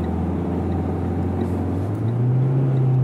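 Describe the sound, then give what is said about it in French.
A car engine revs as the driver accelerates through a gear change on an expressway. The steady, loud droning hum steps up in pitch near the end, with no talk. “Il faut arrêter d'accélérer quand je change de vitesse, c'est pour ça que ça fait du bruit.”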